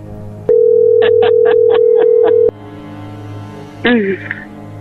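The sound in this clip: The dial tone of an outgoing telephone call holds a steady low pitch for about two seconds. Six short dialing beeps sound on top of it before it cuts off, and a brief burst of voice follows.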